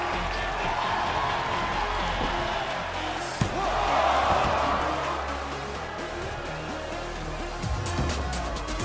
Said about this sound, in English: Oh, and a choke slam.